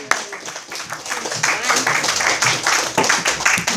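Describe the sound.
Audience applause welcoming a speaker to the podium at a live speaking event, dense, steady clapping that stays fairly loud and even for the whole stretch, with a lively crowd murmur mixed in.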